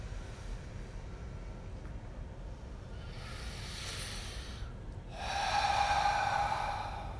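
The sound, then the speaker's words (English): Deep breathing during a guided meditation session, in through the nose and out through the mouth: two long, airy breaths, the second fuller and louder, with no talk over them. “Taking three deep breaths in through the nose, filling the body out through the mouth, relaxing completely, releasing.”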